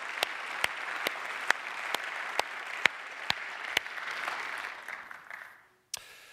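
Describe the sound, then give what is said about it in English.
A church audience applauding to congratulate one of its campuses on its third anniversary: a steady wash of clapping with sharp, regular claps standing out, fading away near the end before one last clap. “if you want to clap for yourselves, you can. But let's just congratulate HP 3 years. Bethel Church campus, can we do that? Congratulations.”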